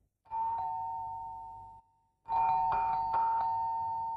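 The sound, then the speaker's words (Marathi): A doorbell rings twice: a single sustained tone that fades slowly, then after a short gap a longer ringing chime with several quick strikes, fairly faint and with no voices. “Bell वाजतीय”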